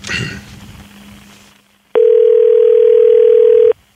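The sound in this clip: Telephone dial tone heard while placing a call: one steady, unbroken pitch that starts and stops abruptly and lasts almost two seconds, after a brief voice and faint background noise.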